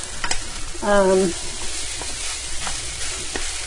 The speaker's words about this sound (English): you can hear that like dry sound. So I would not turn my back on this at this point. I'm stirring and making sure that the rice doesn't get stuck.